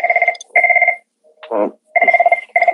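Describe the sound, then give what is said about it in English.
A telephone rings with an incoming call in loud, warbling double bursts: one pair of trilling rings, a short different sound in the pause, then another pair. “That is Vince McMahon calling and saying, "Why in the hell are y'all talking about me right now?"”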